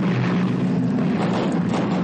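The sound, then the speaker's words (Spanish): Engine drone of an Allied bomber landing with a smoking engine at an air base in the Middle East during World War II, a steady low rumbling hum with a broad rushing noise and no voices. “Una base aérea aliada en el Oriente Medio bombardero aliado aterriza con un motor humeante.”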